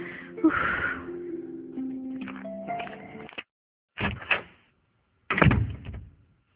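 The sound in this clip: A door opening at home: a long, drawn-out creak with wavering squeaky tones, followed after short silences by a couple of dull knocks or thumps.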